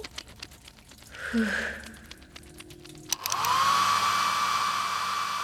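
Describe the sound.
A hair dryer switches on about halfway through and blows steadily with a loud, airy whoosh and a high, constant motor whine, after some quieter rustling and shuffling.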